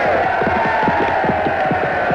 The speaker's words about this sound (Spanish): El judío Isaac y su hija Rebeca, junto al público sajón, festejan el atrevimiento del caballero.